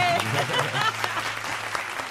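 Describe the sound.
Audience applause after a live morning-show song: a quiet, busy patter of many hands clapping, with speech mixed in, at a fairly even level.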